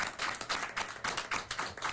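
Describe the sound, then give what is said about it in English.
A few people applaud a police general as he stands during a leadership introduction in Limpopo Province. Their faint, uneven claps patter in quick bursts for about two seconds. “Can I ask General Mashaba just to stand up, and then we can also give him a round of applause.”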